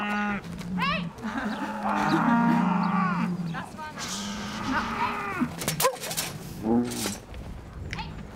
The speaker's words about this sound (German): Die Fersen müssen den schmalen Durchlass im Zaun zur Weide finden. Und dann stehen da noch die anderen Milchkühe auf der Weide nebenan.